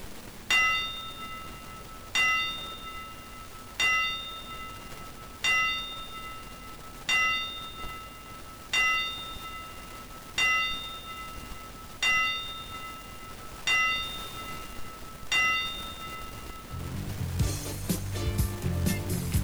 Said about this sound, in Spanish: Como se hace en todos los escenarios del planeta, en el marco del box, las 10 campanadas para despedir a quien se va de gira al gimnasio mayor